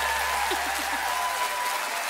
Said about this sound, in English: How about a round of applause for all of these people on stage, ladies and gentlemen? Wonderful musicians.